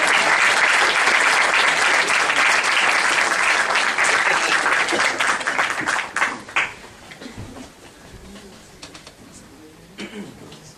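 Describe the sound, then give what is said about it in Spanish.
Audience applause during a university lecture: a dense, loud clatter of many hands holds steady for about six seconds, then thins into scattered claps and fades toward quiet. “Además, como intermedio me pueden aplaudir.”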